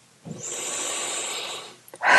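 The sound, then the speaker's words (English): A single deep breath during a guided tapping exercise, a steady, airy intake that lasts over a second at moderate loudness, then trails off into a short pause. “Big deep breath.”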